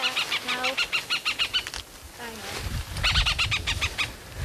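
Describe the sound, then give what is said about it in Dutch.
Harsh, rapid chattering alarm calls from a female hen harrier defending her nest on Texel come in two quick bursts of repeated notes separated by a short pause. “Er wordt goed verdedigd als we hier bij het nest van de blauwe kiekendief op Texel komen. Dit is een heel fanatiek vrouwtje.”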